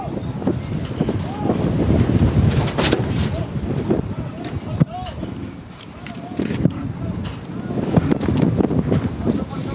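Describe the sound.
Wind gusting across a football stadium during a match, a rough, low rumbling buffet on the microphone that swells and eases throughout, with a voice talking over it.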